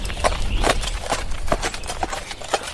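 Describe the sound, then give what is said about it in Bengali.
Horse hooves clip-clop as a man leads a riderless horse through fog on a hill road in Darjeeling, a steady walking rhythm of sharp knocks repeating every half second or so. “কুয়াশার মধ্যেই একজন লোক একটা ঘোড়া নিয়ে এগিয়ে এলো। পিঠে কোনো সওয়ার নেই।”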